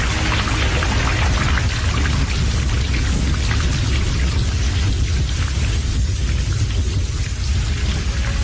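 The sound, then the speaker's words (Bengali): Heavy, unseasonal rain pouring down on a wooded hillside under a darkened sky, a dense, loud, steady roar of hiss that stays unbroken throughout. “কিন্তু কিছুটা এগোতেই দারুণ বৃষ্টি এলো।”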